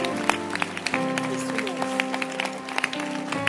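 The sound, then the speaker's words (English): A church audience claps during a Sunday service: sharp, scattered claps sound over sustained musical tones, with voices mixed in. “What a Sunday. What a Sunday. Keep clapping, baby.”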